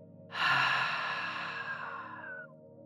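A long hissing exhale is pushed out with the mouth closed and the throat lightly squeezed, as in a breathing exercise: one airy, rushing breath starts abruptly and fades gradually over about two seconds, soft and alone.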